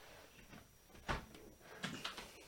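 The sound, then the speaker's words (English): A door opened to let a cat in, heard as a quiet sharp clunk followed by a few softer knocks. “I just had to open the door to let my cat in.”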